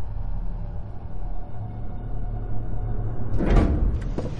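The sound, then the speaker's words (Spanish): A glass display cabinet door is closed with a single brief clunk that rises out of a steady low background hum near the end. “Cierra la vitrina.”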